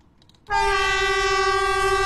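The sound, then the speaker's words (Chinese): A high-speed multiple-unit train sounds a long, steady horn as it moves slowly over the zigzag switchback track at an old station on the Beijing–Zhangjiakou railway in a mountain valley. The rich, loud tone starts abruptly after a brief quiet and holds to the end. “在京张铁路青龙桥老站，和谐长城号动车组从经典的人字形轨道上缓缓驶过，山谷间回荡的鸣笛声像是讲述一个久远的故事。”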